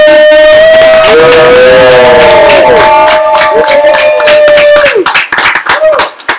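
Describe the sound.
A live audience in San Francisco cheers and claps: sustained voiced whoops and shouts ride over continuous clapping that becomes choppier and more broken toward the end, all loud.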